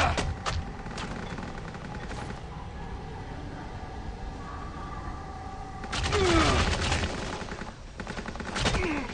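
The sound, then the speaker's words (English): Video game gunfire: scattered sharp shots early on, then a dense, loud burst of rapid fire midway and another shorter burst near the end, over a steady low rumble. “They're behind you. That's where they're shooting you from.”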